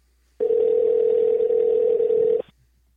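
A steady telephone tone as a call is placed on air: one sustained, even pitch lasting about two seconds, heard alone and then cutting off abruptly.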